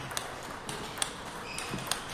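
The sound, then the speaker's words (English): Ping pong balls are struck at a table tennis center in a New Jersey suburb with 24 tables where players train. Quiet, sharp ticks come at irregular intervals over a low background hum. “yes, that's the sound of ping pong.”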